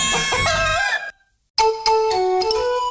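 A rooster crows in a radio ad for a McGockel restaurant: two loud, drawn-out, harmonic crows separated by a brief silence.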